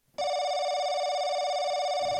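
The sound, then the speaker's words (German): A telephone ringing: one bright, steady electronic tone rich in harmonics starts abruptly and holds unbroken for about two seconds, heard alone. “Ah, da ruft gerade jemand an.”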